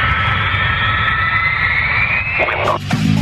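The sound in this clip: Airplane taking off from a runway: a loud, steady engine roar with a bright high whine running through it, holding level throughout, with no talk.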